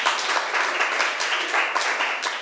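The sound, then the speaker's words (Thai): Students clapping for a classmate in class, a steady, even patter of many hands that continues throughout without pause. “เก่งมากค่ะปรบมือให้เพื่อนหน่อย”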